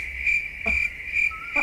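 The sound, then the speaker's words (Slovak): Crickets chirping as a sound effect, a steady high-pitched trill that swells in a few regular bursts, with no voices. “Hej, kde mám cvrčky?”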